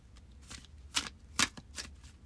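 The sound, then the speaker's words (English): Oracle cards are shuffled by hand: a few soft, papery swishes and slides, quiet and uneven in rhythm, with slightly stronger strokes near the middle and no talk over them. “So let's pull a Witch's Wisdom Oracle card for this week ahead.”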